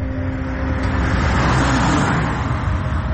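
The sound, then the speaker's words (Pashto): A car passes along a road near a seashore, a steady rush of engine and tyre noise that swells slightly midway and then eases, with no voices. “موټر تیر سو”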